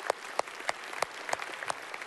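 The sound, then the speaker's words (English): Scattered applause from a church audience cheering for the gospel: several sharp claps stand out above a low, steady patter of hands. “Yeah, let's cheer for the gospel.”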